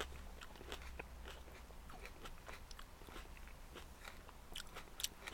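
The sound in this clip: Faint, crisp crunching as someone bites into and chews a cherry tomato. Many small irregular clicks and crackles sit over a low hum, with no talking.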